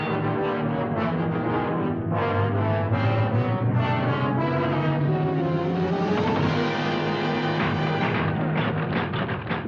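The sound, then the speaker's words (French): A ship's engines run at full speed ahead with the propeller engaged, giving a loud, steady droning roar with a pulsing throb that swells slightly partway through. “L'hélice est engagée.”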